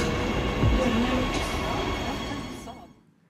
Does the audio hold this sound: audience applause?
no